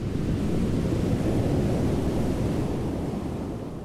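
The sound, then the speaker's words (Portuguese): A large ocean wave breaks at Nazaré, a broad, loud roaring rush of surf that holds steady and then eases slightly toward the end, with no voices. “Sempre que a onda quebrava, ela fazia um som alto e assustador.”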